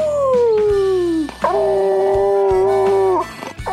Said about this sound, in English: each Bluetick is born with its own unique howl, allowing a hunter to recognize their dog from far away.